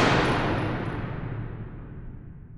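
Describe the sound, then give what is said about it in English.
A gun fires at a man by a shop door, a loud, broad blast already at full strength at the start, then a slowly fading rumbling tail that dies away over a couple of seconds, with no voices. “The last thing Dean O'Banion heard was the crack of a gun once more, and a torturous agony in the back of his head”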